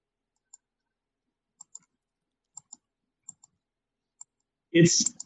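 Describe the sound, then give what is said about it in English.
Faint computer mouse clicks, several of them falling in quick pairs, spaced apart over a quiet background, followed by a brief voice at the end. “Yeah, click on the first one.”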